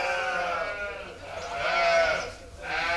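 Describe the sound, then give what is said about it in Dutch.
Sheep bleating in a stable ahead of vaccination: a few drawn-out, wavering bleats overlap one another, fairly loud and nasal, with no talk. “Dus ja. Dan kunnen we alle schapen hier vaccineren.”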